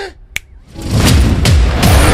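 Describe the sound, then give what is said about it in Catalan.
A single sharp finger snap cracks out of near silence. Moments later a loud, rumbling rush swells up and carries on to the end, with a few soft surging pulses inside it. “Cada cop que faci petar els dits!”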